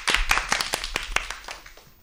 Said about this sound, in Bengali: দূরে হাততালি দাও একটু।